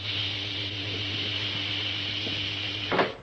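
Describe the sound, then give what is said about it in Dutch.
An inner door opens once air pressure reads normal. A steady mechanical whir and hiss holds level throughout, then ends in a short, louder clunk near the finish. “Ik open de binnendeur.”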